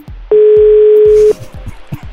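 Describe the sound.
Telephone dial tone heard while calling a number again, a single loud, steady, even tone lasting about a second, set against low, uneven background sounds before and after.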